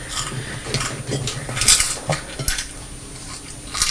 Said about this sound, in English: I can hear a noise, Thomas. Oh, it's the video rewinding. It worried me because I didn't know what it was.